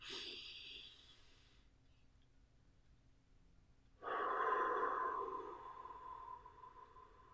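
Deep breaths taken during a guided relaxation exercise: two long, breathy airflow sounds separated by a quiet pause, the first softer and the second louder and fuller, fading gradually, with no talking.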